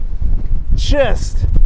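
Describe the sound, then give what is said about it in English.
Strong wind on the Atlantic Ocean coast on a cold, foggy day, heavy low gusts buffeting the microphone throughout while a person's voice cuts in briefly. “Man, it's so windy. This is how I imagined the Atlantic Ocean. This is exactly how I imagined it. Really threatening, windy”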